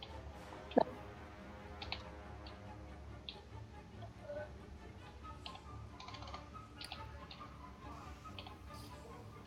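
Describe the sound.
Soft typing on a computer keyboard to roll damage in chat during a tabletop role-playing game session: many quiet, irregular key clicks, with one sharper click near the start.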